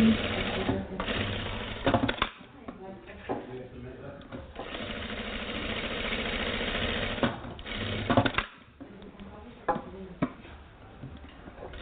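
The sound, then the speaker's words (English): Sewing machine stitching ten parallel rows, guided by the presser foot, its motor whirring steadily in long runs broken by a few short pauses and ticking stops. “Now I'm going to do 10 stitches using my foot as a guide, parallel to one another. I'm going to do 10 stitches.”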